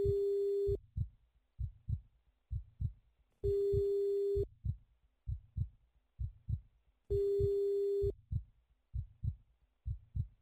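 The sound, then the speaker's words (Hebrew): A ringback tone sounds while a telephone call is placed to a mobile number: three steady, mid-pitched tones, each about a second long, separated by pauses, over a low, throbbing, heartbeat-like double pulse that repeats throughout. “כדי להיות בטוחים שאכן מדובר בעומרי, השוטרים מתקשרים למספר הנייד שקיבלו מוקדם יותר מדנה.”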